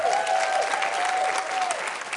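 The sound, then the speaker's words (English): Loud, sustained applause from an audience at a ministry gathering, dense clapping with a long, high tonal cry running through it before fading slightly at the end. “Can we just give her a round of applause?”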